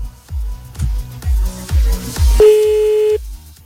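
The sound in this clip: A telephone ringing tone sounds while calling back, a single steady mid-pitched tone under a second long, heard over a loud rhythmic low thumping beat.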